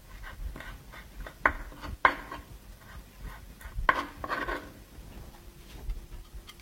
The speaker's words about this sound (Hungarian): Körülbelül egy ilyen kis csokornyira lesz szükségünk. Felaprítjuk jó apróra, és hozzárakjuk.